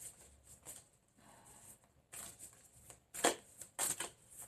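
Shuffling of a deck of oracle cards, heard as faint, soft rustling with a few brief, sharper riffling bursts toward the end.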